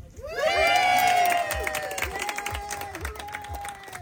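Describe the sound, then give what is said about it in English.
Dignitaries and community members cheer at a ribbon cutting for three affordable cottage homes, with a loud burst of shouts and whoops that settles into clapping and scattered voices. “That's the sound of dignitaries and community members celebrating the recent ribbon cutting for three affordable cottage homes.”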